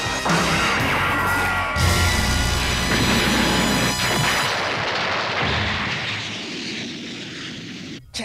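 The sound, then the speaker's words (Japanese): A fictional beam missile launching and firing: a loud, sustained roaring blast of broad noise with bright hiss that slowly fades, ending in a brief sharp hit. “光線式ミサイル発射。”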